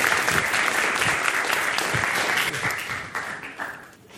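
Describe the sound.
An audience applauds to welcome a speaker at a lecture. The clapping is dense and steady, then thins out and fades toward the end.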